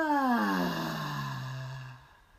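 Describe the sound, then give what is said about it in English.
A loud voiced exhale in a breathing exercise, where stale air is pushed out by contracting the belly. It is a single moan-like tone that falls in pitch and fades after about two seconds. “we release by contracting our belly. And we do that with a loud release to get any stale air out of our lungs. So deep breath in and out.”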